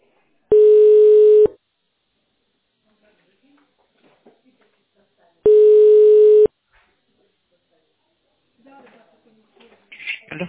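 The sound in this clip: Telephone ringback tone while waiting for a call to connect: two long, steady, low beeps about five seconds apart, followed by faint rustling and voice-like noise.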